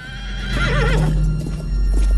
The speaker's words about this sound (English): A lone horse rider makes their way across a dry, grassy plain.